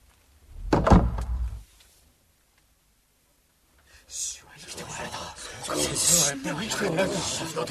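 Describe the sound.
A door thuds shut with a short scraping rub, as a bolt is secured against intruders in a dramatized scene of the disciples' hiding place. A silent pause follows, then hushed, whispering voices.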